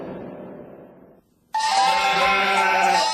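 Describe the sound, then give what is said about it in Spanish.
Sheep bleating: two drawn-out harmonic bleats separated by a short pause, the second louder, brighter and more sustained than the first. “Muchas ovejas son un rebaño.”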